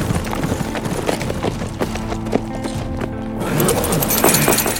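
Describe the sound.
Hooves of horses clip-clop as an Apache war party rides in through opened gates into a compound, a steady run of many overlapping hoofbeats at moderate loudness that swells slightly toward the end.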